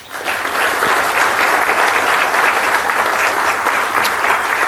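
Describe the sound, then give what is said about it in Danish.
A university audience applauds to welcome a panel of speakers. The clapping rises quickly to a loud, dense, continuous roar and stays steady to the end. “Varmt velkommen til alle sammen. Skal vi ikke lige give dem en hånd?”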